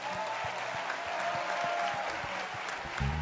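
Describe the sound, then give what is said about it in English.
An audience gives a respectful round of applause for its regional and zonal leaders. Many hands clap steadily in a continuous, fairly faint wash. “I want you to give them a respectful hand clap.”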